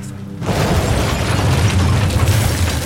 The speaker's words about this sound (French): Attention! On va actionner les détonateurs. Ouvrez la bouche et baissez la tête.